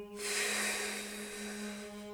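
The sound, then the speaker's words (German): Slow, steady exhale through the mouth on a hissing consonant, done as a breathing exercise while lying with the hands under the lower back. A faint, even breathy hiss holds for about two seconds. “Nun atmen wir durch den Mund langsam auf dem Konsonanten”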